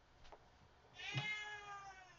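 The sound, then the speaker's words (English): A cat gives one drawn-out, tonal meow, quiet and alone, after a faint brief noise just before it. “That was the cat.”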